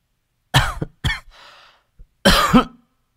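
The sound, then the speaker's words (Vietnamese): A woman coughs softly a few times in short, breathy bursts separated by pauses, and the last cough is slightly longer and throatier. “Cô Thắm khẽ ho.”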